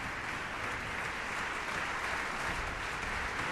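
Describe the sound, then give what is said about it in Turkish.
Concert audience applauding after a piece for soprano and eight cellos with orchestra: a dense, continuous wash of many hands clapping, steady in loudness throughout, with no voices standing out. “Sanatçı Anna Wisbiczka alkışlar eşliğinde tekrar sahneye geldi.”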